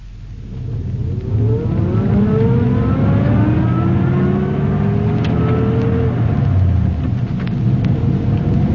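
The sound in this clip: A Rolls-Royce car with a chauffeur at the wheel pulls away, its engine revving up through rising tones into a loud, steady whir that holds and then eases off at the end.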